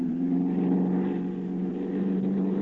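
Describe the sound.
Steady engine drone of a light aircraft circling over an unlit airfield at dusk, a loud, continuous low hum that holds level throughout with no voices.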